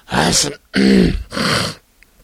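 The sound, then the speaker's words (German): Three loud, rasping throat-clearing bursts, heard alone, as a person ritually clears their throat before starting a show. “am Anfang immer noch so dieses ritualisierte Räuspern. Das ist ganz wichtig, dass man sich auch mal ordentlich durchräuspert, bevor man so eine Sendung anfängt.”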